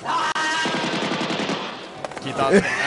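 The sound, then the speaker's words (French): Machine-gun fire from a ninja scene in the action film Force Élite: a rapid burst of evenly spaced shots is followed by a few scattered louder impacts and other film sounds. “Donc, sans même regarder le ninja, il le mitraille.”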